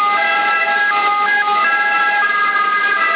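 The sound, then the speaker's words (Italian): An ambulance siren comes through a narrowband CB radio channel in Sassari, Italy. Its loud, steady wailing tones step between pitches and run continuously without pause. “C'è un'ambulanza in Kiwi. No, è proprio entrata qua dietro.”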